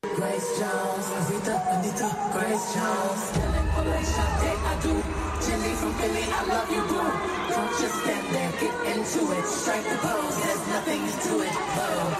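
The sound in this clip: A concert audience cheers and shouts in one loud, steady crowd roar that lasts throughout, with a deep low rumble joining after about three seconds.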